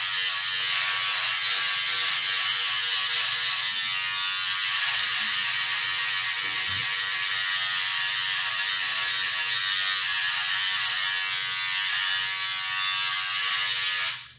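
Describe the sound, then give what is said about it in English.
Electric razor shaving, a loud, continuous high-pitched buzz with a rattling mechanical edge that stays steady throughout and then cuts off at the end. “The noises you're hearing are me shaving.”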